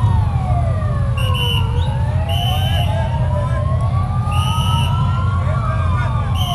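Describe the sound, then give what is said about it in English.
Emergency vehicle sirens of rescuers arriving at a luxury hotel in Havana, Cuba, after an apparent gas leak explosion: several overlapping wailing sirens that rise and fall in pitch, loud and continuous over a steady low rumble of engines and traffic. “sirens as rescuers arrive at a luxury hotel”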